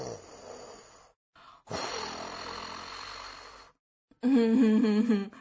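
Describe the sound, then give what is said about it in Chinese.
Loud snoring of a sleeping piglet comes in a few rough, drawn-out breaths separated by short gaps. It ends in a stronger, tonal stretch with a wavering pitch. “胖小猪不但没有醒，还打起了响亮的呼噜，说起了梦话。”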